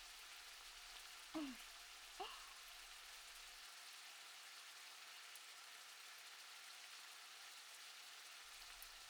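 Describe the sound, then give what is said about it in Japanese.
Food frying in a frying pan during cooking gives a dense, steady crackling sizzle throughout, quiet but constant, with two brief louder knocks near the start. “音フェチな人って こういう調理してる音でも同じを感じてたりするんだから、我慢だよ。”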